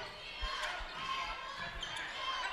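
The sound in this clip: Basketball dribbled on the court during a Crawfordsville high school game; a few dull, low bounces in an even rhythm, faint beneath a constant crowd murmur.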